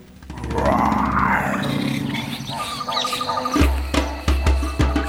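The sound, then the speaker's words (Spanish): A lion roars in one long, deep, growling roar that holds steady for a few seconds, followed by a few short, forceful grunts. The sound is loud and has no talk over it. “mejor que se escondan que viene el león.”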